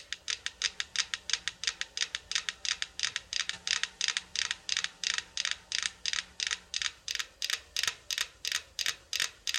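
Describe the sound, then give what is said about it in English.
Many metronomes on a shared wooden platform, coupled by two rotating cylinders, click in sync: a steady, evenly spaced train of sharp wooden ticks that holds its brisk tempo throughout, with no voices. “Now, these two cylinders start to rotate. And this rotation and vibration go into the wood and going to couple all the metronomes together. And now, listening to their click.”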